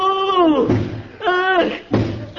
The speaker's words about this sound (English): Hey, mister, what you doing? What you banging your head against the wall for?